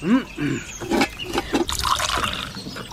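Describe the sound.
Tea pours into a cup in a steady trickling stream, liquid splashing and filling without a break for several seconds, with voices faintly present near the start.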